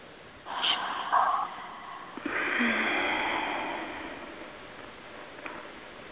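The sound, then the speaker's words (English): Deep breathing during a guided breathing exercise, with a short airy inhale followed by a longer, rushing breath that slowly fades, moderately loud and with no talk. “so let's breathe into that”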